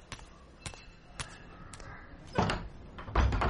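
A door being opened: a few short, sharp clicks and knocks, followed by two louder, broader bursts of rattling noise near the end.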